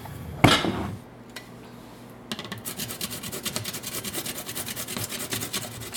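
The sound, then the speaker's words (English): Zucchini being grated during kitchen meal prep: a sharp knock, a brief pause, then many quick rhythmic rasping strokes against the grater, steady and moderately loud. “But I'm gonna go grate a zucchini.”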